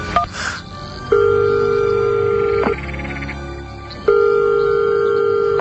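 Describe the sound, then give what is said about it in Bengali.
An unanswered telephone call rings out as two long, steady ringback tones separated by a quieter gap, after a brief beep at the start. “না, phone ধরছে না কেন? আবার ডাক করি।”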